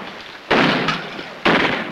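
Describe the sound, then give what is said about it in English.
Gunshots in a dramatized pirate battle, fired from atop a stockade fence: two loud, sharp blasts about a second apart, each trailing off in a noisy decay. “Dandy fires and wounds the captain”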